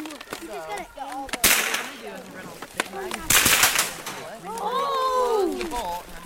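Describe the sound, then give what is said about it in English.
Rifle shots ring out at a biathlon shooting range: a few sharp cracks, two of them much louder, break over a voice talking throughout. “an older group makes its way down to the shooting range. While coming to ski after school is routine for these kids, this is their first time shooting rifles, the other skill in the sport of biathlon.”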